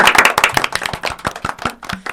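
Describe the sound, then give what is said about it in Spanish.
Clapping from a small group of school students in a studio: many sharp, separate claps in an uneven, quick rhythm, fairly loud and with no talk over them. “Un aplauso para nosotras.”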